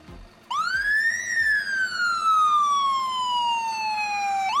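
A fire engine siren wails loudly on its own, sweeping up quickly, then falling slowly in one long tone before beginning to rise again at the end.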